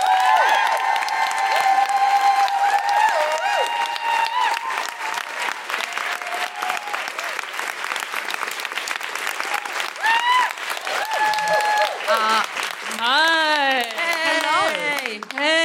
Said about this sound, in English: Put your hands together and make excited noises for Mae Martin.